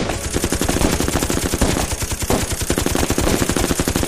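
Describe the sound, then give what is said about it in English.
Rapid automatic gunfire, about fifty bullets fired at close range into a large attacking predator. The shots form a dense, fast, even stream of sharp cracks that stays loud and steady throughout, with no voices. “Fifty bullets hit the vicious predator in an area a little larger than a soup plate.”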